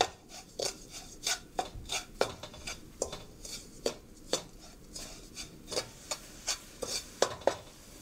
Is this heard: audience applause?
no